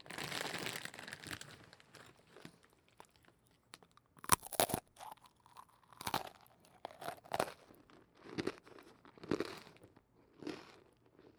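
Crunchy, crispy food bitten and chewed close up: many sharp, crackling crunches come in irregular bursts, with brief quiet gaps between the louder bites.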